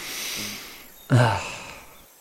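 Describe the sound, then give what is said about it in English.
A person sniffing a pleasant smell through the nose: one sudden, breathy inhale that starts sharply and fades over about a second, after a steady low hiss. “Humans often inhale through their nose when they smell something nice. It's an automatic response.”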